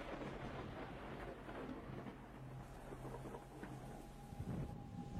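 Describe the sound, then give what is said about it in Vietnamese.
Heavy rain and thunder from a sudden autumn downpour form a steady, dense low wash, with a rumble swelling briefly near the end. “Ngoài trời đã bắt đầu đổ mưa xuống. Kỳ lạ thật. Trời vào thu, làm gì có những cơn mưa rào sấm sét như thế này đâu.”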